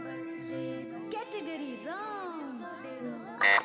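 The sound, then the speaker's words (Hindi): A quiz buzzer pressed by a school student during a school quiz contest, a short loud buzz at the end after a stretch of talk. “Buzzer बजाई है horizon school की student ने।”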